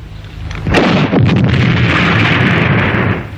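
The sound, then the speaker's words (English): Electronic explosion effect from a toy grenade launcher bazooka: a sudden loud burst of rushing, crackling noise that holds steady for nearly three seconds before easing slightly at the end. “with a built-in radio, automatic rifle, and this is a grenade launcher, a bazooka.”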